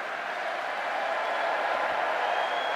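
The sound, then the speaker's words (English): Rapturous applause in Westminster Hall for a leader fighting a war: a continuous wash of many hands clapping, steady and even throughout. “For 900 years, princes and politicians have walked these steps in Westminster Hall. Today, to rapturous applause,”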